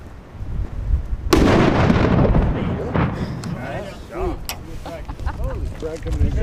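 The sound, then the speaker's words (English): A military demolition charge set off by remote detonator on a windy range behind earthen berms: one sudden, loud blast, then a long rumbling roar that slowly fades while voices exclaim over it. “I take his remote detonator. Without further ado, fire in the hole! Fire in the hole! Fire in the hole!”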